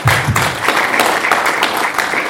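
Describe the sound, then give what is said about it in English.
Applause from an audience for a panel discussion: dense, steady clapping that runs evenly throughout with no clear break. “Let's clap for the panel.”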